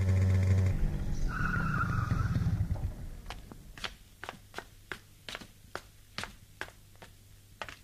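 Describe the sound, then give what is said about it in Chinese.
A motorcycle speeds through quiet late-night streets, its loud engine roar holding for about three seconds before stopping. Then comes a long run of sharp, regular clicks. “在深夜寂静的街上，一辆摩托车飞速地穿过大街小巷，停在田海家的门口。”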